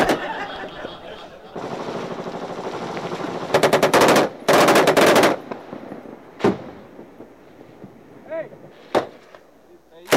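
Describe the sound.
Machine gun fire from a Marine in Afghanistan: long, rapid, loud bursts come first, followed by a few isolated sharp single shots with quieter gaps between them.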